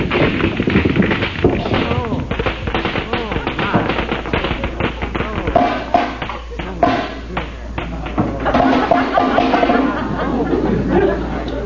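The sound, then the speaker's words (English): A pool cue strikes the balls on a break and the cue slips, giving many hard clacking taps and knocks of balls colliding in quick succession, with voices talking throughout. “Sweet Genevieve. Cue slipped.”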